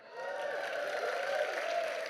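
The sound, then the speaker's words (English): Audience cheering mixed with applause, loud and steady from start to finish, with sustained whooping voices riding over a dense bed of clapping. “I did that knowing we'd get a cheer.”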